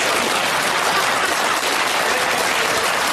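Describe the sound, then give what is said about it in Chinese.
Applause from an audience in answer to a call to clap, a dense and steady wash of clapping that fills the whole stretch at an even loudness, heard alone without talk. “鼓掌，快点”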